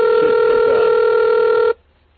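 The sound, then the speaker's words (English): A telephone line dialed from a computer terminal program gives a loud, steady, unbroken tone that holds for under two seconds and then cuts off abruptly into near silence. “I dialed up this phone using Hyper Terminal.”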